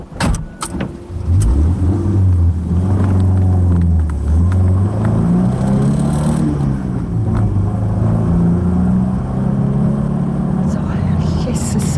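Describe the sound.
A chauffeur-driven car drives along with a steady, loud engine drone whose low hum shifts gently in pitch throughout, and a few brief knocks near the start.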